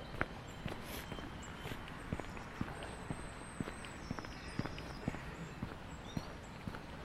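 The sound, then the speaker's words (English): Footsteps of a person walking outdoors on a 5.5-mile round trip: faint, steady, evenly spaced steps at about two per second, continuing at a regular rhythm throughout with no talk. “So I'm going to try and keep the walking up.”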